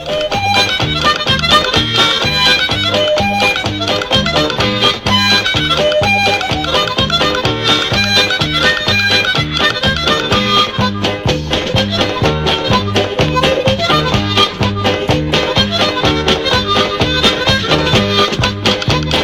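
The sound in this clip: Harmonica playing a Québécois folk tune from a studio album recorded around 1976–77, loud and bright with a brisk, steady rhythmic pulse running the whole way through and no voices.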